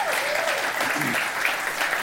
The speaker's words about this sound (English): Give them a hand and thank them for everything they do.